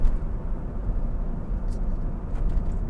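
Inside a moving car, a low steady rumble of engine and road noise fills the cabin with no voices.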